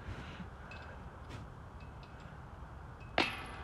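A disc golf disc strikes the metal basket rim, a single sharp clang near the end with a brief metallic ring. Before it come a few seconds of low, steady background noise.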